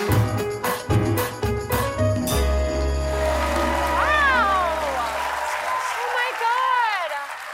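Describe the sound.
Studio audience of a late-night talk show gives a standing ovation, with sustained clapping running beneath people talking.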